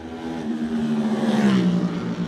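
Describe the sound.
A racing machine's engine roars as it crosses the finish line of an Isle of Man road race, a loud, steady, continuous drone whose pitch dips slightly toward the end.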